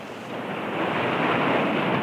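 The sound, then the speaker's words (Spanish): Ocean waves roll on the open sea around three sailing ships, a broad, steady roar of surf and wind that swells louder after the first second and holds strong to the end. “En la inmensidad marina navegaban la Pinta, la Niña y la Santa María.”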